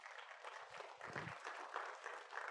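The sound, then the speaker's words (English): Applause from an audience welcoming a guest onto the stage: continuous, even clapping, faint throughout and without a clear break. “But I want you to put your hands together and welcome Erica Caceres to the stage.”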